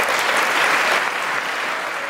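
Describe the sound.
Steady applause from an audience greeting a president's speech plan to end the HIV epidemic, a dense, even clatter of many hands clapping that holds at a constant loud level throughout.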